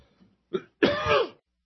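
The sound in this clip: A person clears their throat: a short, soft rasp followed by a longer, louder, harsh clearing, alone without speech.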